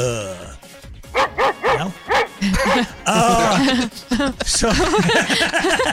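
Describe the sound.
A person's voice imitates a dog barking, giving a rapid run of many loud, yelping barks mixed with whimper-like sounds and short gaps between bursts.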